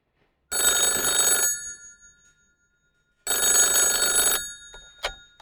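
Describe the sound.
A telephone rings in a language school office before it is answered: two loud, long rings separated by a pause of over a second, with a brief click after the second ring.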